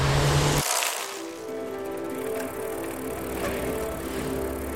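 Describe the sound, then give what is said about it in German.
Bicycle being ridden, giving a steady, continuous whirring and rattling noise with a low hum underneath, unbroken for the whole stretch and without any voices. “Ich fahre auf dem Fahrrad und der Tag ist hell.”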